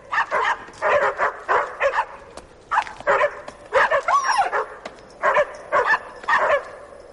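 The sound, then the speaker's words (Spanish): A pack of dogs barks while circling a stumbling man: many loud, rapid barks in rhythmic bursts, with a higher whining yelp partway through. “Camina dando tumbos mientras los perros le rodean y siguen ladrando.”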